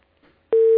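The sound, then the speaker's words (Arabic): A telephone busy tone after a call from Saudi Arabia is cut off: faint line noise, then a loud, steady tone starts about halfway through and holds to the end. “انقطع.”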